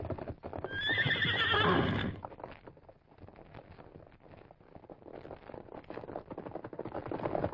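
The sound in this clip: A stallion neighs loudly in a long, shrill whinny, followed by many rapid, uneven hoofbeats as it gallops off, continuing to the end.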